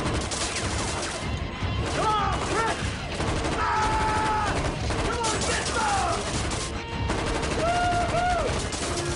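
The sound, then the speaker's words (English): Gunshots fired into a floor inside a building ring out as a loud, dense volley of many rapid blasts that fill the whole clip, with other tonal sounds mixed in. “Watkins heads inside and fires into the floor.”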